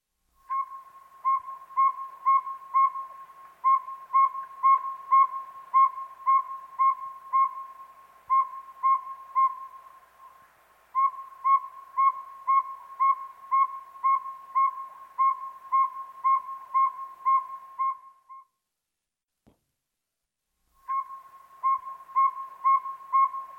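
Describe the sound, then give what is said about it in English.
Northern saw-whet owl calling in a long series of evenly spaced, high whistled toots, repeated at a steady quick rhythm, broken by short gaps and one longer pause before the calling resumes. “Northern saw-whet owl.”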